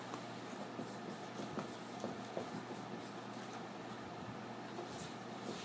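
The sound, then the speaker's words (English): Someone writes things down, producing faint, scratchy strokes that recur as many short, soft scrapes over a quiet steady background hum. “Let me just write down these things.”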